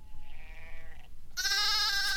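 Two goats bleat in a stable in the morning. The first call is softer and wavering. After a short gap comes a louder, brighter bleat that holds to the end.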